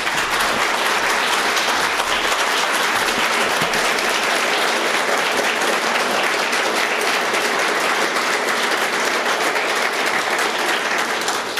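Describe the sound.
Bookstore audience applause welcoming author Andrew Bacevich to an independent bookstore talk and signing. Dense, even clapping continues at a steady loud level for the whole stretch without tapering.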